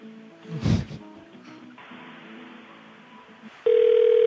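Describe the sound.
Telephone line tone on an unanswered call: a brief muffled bump and quiet line hiss give way to a steady electronic tone that switches on abruptly near the end and holds at a loud, even level.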